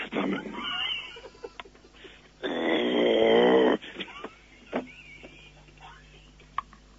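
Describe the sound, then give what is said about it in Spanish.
A person growls at a dog, voicing one rough, throaty growl of about a second that imitates an animal. Faint scattered noises and quiet stretches surround it. “Usted le gruñe al perro”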